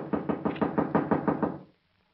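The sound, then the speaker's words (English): Knuckles rapping on a door in a quick, even run of many dull knocks at a steady rhythm, fairly faint, then stopping abruptly into silence. “I'm wearing out my knuckles on this door.”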